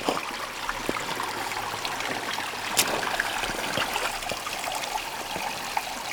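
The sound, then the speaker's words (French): Clear, cool water trickles through a small gorge, a steady soft rushing hiss broken by faint small splashes and drips throughout, with no voices. “Où ruisselle une eau limpide et rafraîchissante.”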